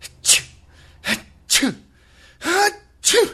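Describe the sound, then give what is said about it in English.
A voice imitates a sneezing fit with five loud, breathy sneezes, each a sharp burst separated by short pauses. “that's a sneeze. A sneezing fit is when you continue to sneeze, non-stop sneezing.”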